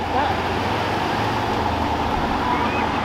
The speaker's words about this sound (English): It looks like the police is driving by.